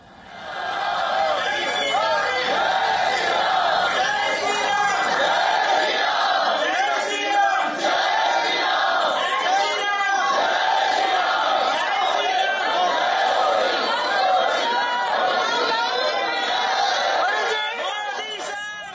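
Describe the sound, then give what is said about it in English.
Indian diaspora crowd cheering and chanting to welcome Prime Minister Modi, a loud, continuous mass of shouting voices with rhythmic calls that stays dense and unbroken for about nineteen seconds. “Members of the Indian diaspora turned out in large numbers to welcome the Prime Minister as well.”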